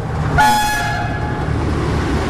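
A locomotive horn sounded by train drivers as a tribute to the passengers and crew lost in a rail disaster: one loud, sustained, multi-toned blast, then a low continuous rail rumble.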